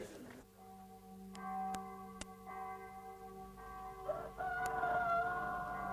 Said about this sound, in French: Le chant du coq. Toujours vaillant, celui-là.